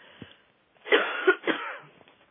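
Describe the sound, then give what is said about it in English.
A person coughing: a couple of short, harsh, throaty bursts in close succession, fairly faint, with quieter breathy sounds around them. “I'm about to cough here, so excuse me a minute.”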